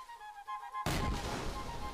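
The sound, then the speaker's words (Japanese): Cannon fire from a fort bombarding its target: a single sudden, heavy boom that breaks in after a stretch of sustained tonal music and rings on as a loud, rumbling wash. “ラビュズは砦から散々に砲撃され”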